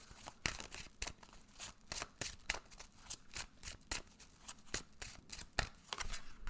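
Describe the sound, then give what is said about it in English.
Tarot cards being shuffled and drawn, many quiet, crisp snaps and riffling flicks in an irregular rhythm, with no voices. “Okay, let's go ahead and pull some cards. See what you need to know this week.”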